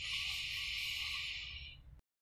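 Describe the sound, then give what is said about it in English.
A deep breath drawn in during a guided standing exercise: one long, steady, airy inhalation that hisses evenly for about two seconds before cutting off abruptly. “Take a breath in.”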